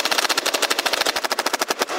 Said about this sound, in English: turned his engineering eye on the Nerf gun. Shoot.